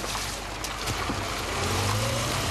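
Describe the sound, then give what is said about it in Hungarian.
Steady engine drone and road rumble from a Soviet-made car driving the heavily potholed road from Chop toward Berehove, growing slightly louder toward the end. “Stábunk is csak szovjet gépjárművel tudott közlekedni.”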